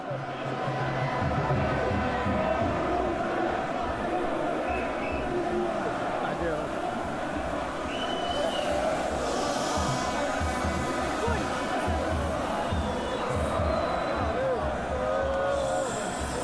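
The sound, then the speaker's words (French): A crowd of angry protesters passes at a demonstration, producing a steady, moderately loud babble of many overlapping voices that continues throughout. “La foule en colère passe mais ordonne le silence, par respect pour les malades.”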